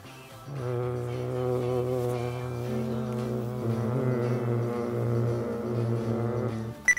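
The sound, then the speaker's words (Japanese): A voice imitates a flying bee with a prolonged buzzing English V sound, lower lip bitten, held as one continuous steady tone for about six seconds, its pitch shifting slightly partway before it cuts off. “V の発音は蜂が長く飛んでる感じ。下唇を噛んで、”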